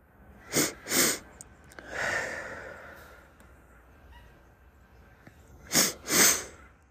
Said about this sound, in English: Inhaling, inhaling, and then exhale through pursed lips.